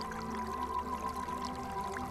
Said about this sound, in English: The water from the fountain nearby begins to gurgle.